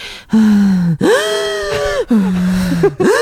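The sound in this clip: A man imitates the gasping breath of cycling at about 4,700 metres on a snow mountain, his first road-bike climb: a few loud, strained, voiced gasps in quick succession, each one shifting between a lower and a higher pitch.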